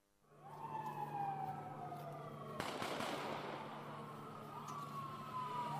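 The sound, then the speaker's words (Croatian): A police siren wails steadily through a police tactical demonstration exercise in central Banja Luka. Midway, a single sharp bang breaks through, and a continuous broad rumbling noise runs underneath. “Pucnjava eksplozija po vici u centru Banja Luke. Ovako je izvedena pokazna vježba spremnosti MUP-a Srpske.”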